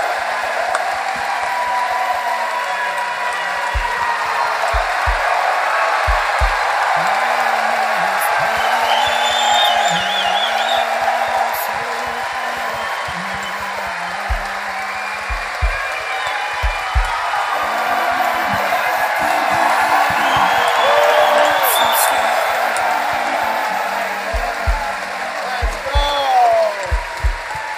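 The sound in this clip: A crowd at a live event held in a library cheers, whoops and applauds in a long, sustained wave for former Ohio State and NFL player Ryan Shazier, with voices carrying through the noise.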